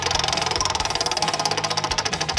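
A prize wheel spins on a radio station's giveaway segment, its pointer clicking against the pegs in a fast, even stream of ticks that runs through the whole clip.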